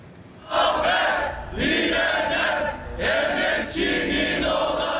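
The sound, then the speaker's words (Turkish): A crowd of teachers outside a private Italian high school in Istanbul chants loudly in celebration of the end of their 123-day strike, shouting in repeated rhythmic phrases separated by short breaks. “Dört aylık grev bitti, okul önünde kutlama yapıldı.”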